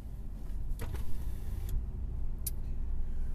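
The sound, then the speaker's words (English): A few brief creaks from a car's chassis cut through the steady low rumble of the vehicle, sharp and short, with quieter stretches between them. “I wanted to get the sound. I don't know if you can hear that. Oh, the chassis squeaking.”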